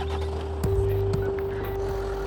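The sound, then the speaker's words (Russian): An ambulance car starts and drives out of a parking lot. A low engine rumble swells after a short knock, over a constant steady hum, with a few light clunks. “Машина трогается и уезжает с парковки.”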